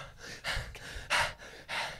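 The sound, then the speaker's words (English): A person imitating out-of-breath gasping after sprinting: a few heavy, breathy pants in an uneven rhythm, each a rough rush of air, with one sharper gasp in the middle. “Just immediately out of breath.”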